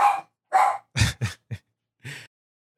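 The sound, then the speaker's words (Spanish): A female dog barking: six short, sharp barks in an irregular series. They are loud and alone, with silent gaps between them. “mientras sacas a esta pinche perra”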